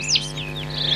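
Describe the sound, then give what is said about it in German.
A nightingale sings in the background in springtime, giving a brief burst of faint, high whistled sweeps and chirps over a steady low hum. “Wir hören die Nachtigall im Hintergrund.”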